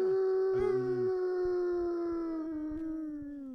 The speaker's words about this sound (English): We're trying to get Chris's dog to sing.